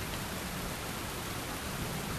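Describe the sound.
Steady heavy rain from a pitiless storm, a dense, even hiss that holds at the same loudness throughout with no breaks and no voices.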